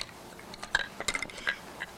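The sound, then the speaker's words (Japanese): Light metallic clinks from a cooking pot lid being handled, several brief, bright taps and rattles at a moderate level. “これなんか蓋だね。お鍋のね。”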